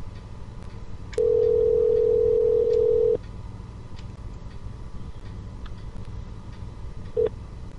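Telephone keypad tone from pressing the pound key: a steady, mid-pitched beep lasting about two seconds, then a short second beep near the end, over faint background hiss.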